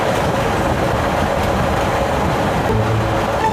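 Loud, steady rumble of a moving train, with rolling rail noise and a low, heavy drone that carries evenly throughout. No one speaks.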